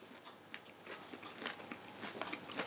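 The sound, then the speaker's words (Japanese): Someone eats a McDonald's Big Mac burger, making soft, crisp chewing and crunching like fresh salad, with many small bites at an uneven pace. “食べてる音がバーガーの音じゃないサラダの音ですよ完全に。”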